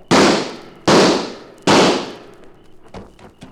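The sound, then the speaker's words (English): Sound-effect gunshots in a drama scene: three sharp, loud bangs, evenly spaced, each ringing out and fading. A few faint pops follow. “Down! Flatten out! That must be Leonard. That last shot gave him away.”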